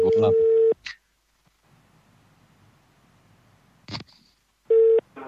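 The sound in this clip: A telephone ringback tone sounds while a call is being placed: a steady mid-pitched tone under speech at the start, then a near-silent stretch with faint hiss and a brief voice, then the tone returns, again with speech.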